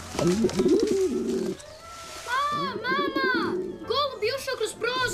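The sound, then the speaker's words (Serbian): Pigeons cooing: low, warbling coos repeat under people talking, with higher voices also heard. “Odvratno, golubovi su prljavi i prenose boleštine.”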